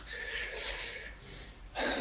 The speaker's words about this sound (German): Lass dir doch Zeit, atme noch mal durch.